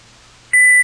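A telephone time announcement tone: a single short, steady high electronic beep that cuts in sharply after near silence and stops cleanly.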